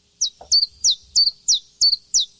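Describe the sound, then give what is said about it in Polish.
Birdsong in Gliwice, Poland, in March: seven sharp, high-pitched chirps repeat in an even rhythm, with a few faint low thumps underneath. “Pani Ania informuje, że teraz w Gliwicach no po prostu koncert ptasi”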